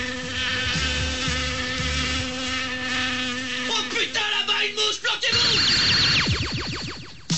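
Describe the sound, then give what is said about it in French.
A fly buzzing with a loud, high, harmonic whine that holds steady, then wavers and flutters erratically, swooping in pitch toward the end. “là-bas, une mouche, planquez-vous!”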